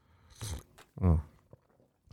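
A crunchy bite into spicy food with a hint of Indonesian flavour, followed by a louder appreciative hum and then a few faint chewing clicks before quiet.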